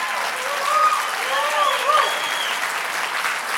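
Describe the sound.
Church audience applauding to thank and welcome visiting guests during an evening service. Loud, sustained clapping runs throughout, with voices cheering and calling out over it.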